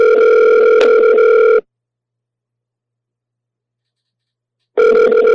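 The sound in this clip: Telephone ringing in two long, loud, steady tone bursts separated by a stretch of silence, with no voices.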